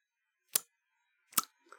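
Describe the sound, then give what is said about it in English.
Tongue clicks made by a person, of the kind used for human echolocation: two sharp, crisp clicks well apart, then a fainter softer click, each very brief and separated by silence. “he uses a series of tongue clicks where he does something kind of like this,”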